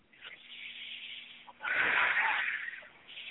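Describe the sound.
Slow, faint breathing during a guided exercise: a soft, airy inhale, then a louder, fuller exhale, with no talk over it.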